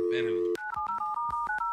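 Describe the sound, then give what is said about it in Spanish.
Telephone keypad tones as a number is redialed: a rapid run of many short two-tone beeps, loud and even, after a brief burst of voice at the start. “A ver, déjale, marco otra vez.”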